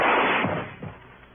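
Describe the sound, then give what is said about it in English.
A gunshot in a radio drama: a sharp, loud blast that rings out and fades away over about a second, with a dull, muffled tone. “Yeah, you shot him good the first time, Arnold. Why did you waste another bullet?”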